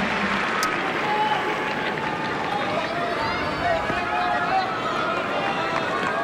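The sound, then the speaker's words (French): A noisy tennis crowd stirs during a match as the leading player serves for victory, a steady dense murmur with scattered claps and calls running under a man talking. “le public qui manifeste de plus en plus. Il est bruyant ce public, vous trouvez”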